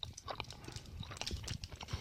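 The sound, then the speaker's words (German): Someone bites into and chews an orange-coloured sweet close to the mic, with rapid, irregular crunching and squishing bursts throughout. “Naja, der Vollständigkeit halber beiße ich mal noch in das Orangene.”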